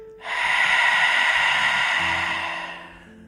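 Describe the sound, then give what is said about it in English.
A long, deep breath out through an open mouth during a breathing exercise: a loud, steady, airy exhale lasting about two and a half seconds that tapers softly at the end. “Take a deep breath in. Expand the belly, rib cage, fill up through the chest. And open your mouth, breathe out.”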